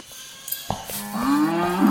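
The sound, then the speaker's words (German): Cattle mooing from a cow that has torn itself loose: one long, low moo swells from mid-clip and grows louder to the end, after a few soft knocks. “Der Rind hat sie losgerissen, ich mach's schnell wieder fest.”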